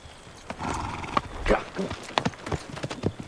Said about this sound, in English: Ennis stares as Jack then whisks his horse around and rides off.